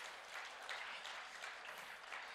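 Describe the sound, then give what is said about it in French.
A church audience applauds in continuous, dense clapping that stays fairly even throughout and is faint overall. “Est-ce qu'on peut applaudir le Seigneur? Il en est digne.”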